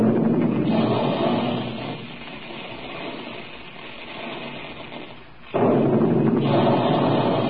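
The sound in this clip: Cannon blasts from big guns used as a sound effect in a puffed wheat and puffed rice cereal advertisement: a dense, loud, sustained booming roar that eases off through the middle, then surges back sharply near the end.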